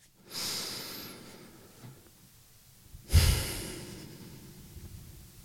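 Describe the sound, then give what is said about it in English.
A group takes deep breaths during a mental health workshop, with two main slow, airy breaths: a long hushed inhale and then a louder sighing exhale that fades out. The breathing is faint, with no talk. “But let's just take a few deep breaths and close your eyes if you want.”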